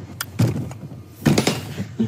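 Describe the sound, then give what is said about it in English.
Top and bottom locks being turned on a heavy apartment door: a few dull metallic clunks and rattles, with two louder bursts and a smaller one near the end, over quiet background. “The door to my mom's apartment is heavy. You have to kind of twist the top lock just the right way and the bottom lock”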